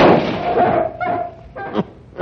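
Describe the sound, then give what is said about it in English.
A shotgun blast fired at a group of wolves: a loud, sharp report with a long, decaying rumble, followed by a few lighter thumps. “Wait till enough of them get together in a little area and hope the scatter of the shot will get more than one.”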